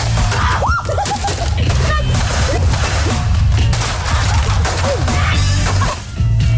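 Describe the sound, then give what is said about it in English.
A baseball bat repeatedly smashes a television, producing loud, dense crashing impacts and cracks over a continuous noisy wash throughout. “I've always wanted to smash up a TV. Yeah, girl, smash it.”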